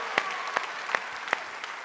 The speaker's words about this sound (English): Come on, give it up for the I-Town Pit Crew, everybody. Good job, guys.